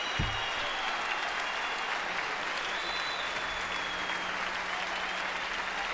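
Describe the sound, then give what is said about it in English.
Audience applause at a live Dave Brubeck Quartet jazz concert: a dense, steady wash of many hands clapping, sustained at an even level for the whole stretch. “I love the audience noise. You're only as good as your audience, you know.”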